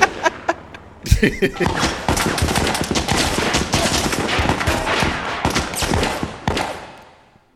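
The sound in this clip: Gunfire from a Draco pistol: a few sharp shots open, then a long run of rapid, loud cracks in quick succession that carries on for several seconds before it stops.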